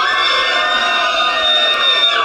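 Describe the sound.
Crowd cheering and screaming at a party before bands take the stage. A loud, dense, unbroken roar of many high voices, with shouts and whoops, holds steady throughout.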